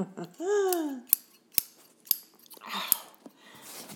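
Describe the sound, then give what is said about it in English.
Scissors snip through hair in four sharp, crisp cuts spaced irregularly, with a short voiced sound just before the first cut. “I guess I could snip with one hand and hold it with the other hand to get it out of my way.”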